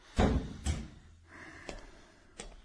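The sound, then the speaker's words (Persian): A room door is closed with two dull thuds in quick succession, followed by a couple of fainter clicks. The sounds are fairly quiet overall. “در اتاقو ببند و بیا اینجا بشین”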